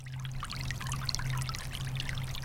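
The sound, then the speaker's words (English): Water trickles through a small rivulet in a creek in the coastal plain of southeastern North Carolina, a steady, continuous babbling wash with no pauses. “There's a little rivulet. Let's go plug it up. It's the sound of the running water that tells the beaver where to plug up that stream.”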